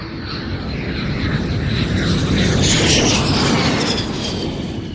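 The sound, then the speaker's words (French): Uruguayan Air Force Fairchild military airplane taking off, giving a loud, steady engine roar that swells toward the middle and then eases slightly, with no voices. “À 8h05, le Fairchild numéro 571 de l'armée de l'air uruguayenne décolle.”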